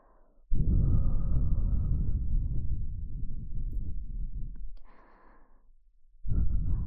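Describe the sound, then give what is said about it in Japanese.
Soft breath is blown into both ears in close ASMR style: one long, steady airy exhale that slowly fades, a pause, then a second breath starting at the end, with no talking. “ほら、どうですか。両耳から吐息かけられると、”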